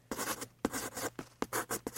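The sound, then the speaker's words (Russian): Scratchy strokes of a hard pencil writing on paper, a quiet, irregular run of short rasping marks separated by brief pauses, heard alone without talk. “Теперь послушай. У меня совсем не такой приятный звук, потому что у меня карандаш тверже.”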